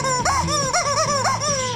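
A hen clucks in a continuous run of nasal, warbling calls that rise and dip in quick succession at a steady, fairly loud level.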